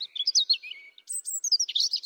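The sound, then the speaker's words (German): European robin singing its aggressive territorial song: two short phrases of thin, high, rapidly warbling notes separated by a brief pause, fairly faint and alone. “Für Vögel ist Kampfgesang. Also Rotkehlchen sind ja mit die aggressivsten Kleinvögel, die es überhaupt gibt.”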